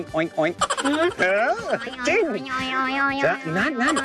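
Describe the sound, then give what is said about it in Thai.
A voice imitates a pig's oink with a run of loud, wavering vocal calls whose pitch glides up and down in several arching sweeps, nasal and bleat-like, with brief gaps between them. “โอ้หมู pig แล้วหมูจะร้องว่ายังไงครับ อูด ที่บ้านผมร้องว่า”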